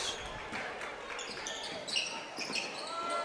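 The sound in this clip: A basketball is dribbled during a game, with bouncing thuds under steady crowd noise and a few short squeaks of shoes on the court.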